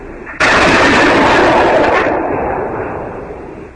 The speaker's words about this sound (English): That was me firing. I got a rifle.